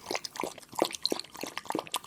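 A service dog laps water thirstily, making quick, rhythmic wet splashes and slurps in a steady run of small bursts.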